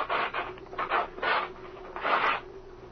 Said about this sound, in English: I'll rip this wing covering off and see why the patch was made.